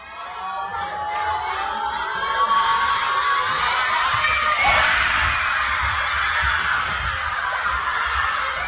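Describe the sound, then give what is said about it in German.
Schoolchildren cheering and shouting together in a school at the kickoff of Austria's World Cup football match, a dense, loud roar of young voices that swells after the first couple of seconds and stays high. “Und beim Anpfiff des ersten WM-Spiels für Österreich seit 28 Jahren klang das dann so.”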